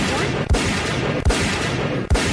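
Gunshot sound effects standing in for shots fired at a worker on a cherry picker: three sharp, evenly spaced reports punching through a dense, steady wash of noise.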